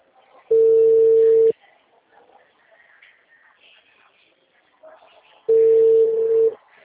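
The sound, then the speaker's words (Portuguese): Ringback tone of an outgoing telephone call: two steady mid-pitched beeps, each about a second long, separated by a pause of roughly four seconds with only faint background noise. “exatamente agora não, que eu vou entrar em ligação”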